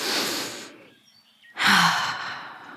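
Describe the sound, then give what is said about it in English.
A deep breath taken outside on the grass: two long, airy breath sounds separated by a short quiet pause, the second rising sharply, with no talk. “You go outside on the grass. You take a deep breath.”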